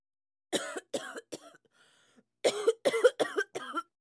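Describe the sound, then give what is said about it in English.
Coughing comes in two fits: three harsh bursts, then four more after a short pause. It is loud and stands alone with no other sound. “Cough.”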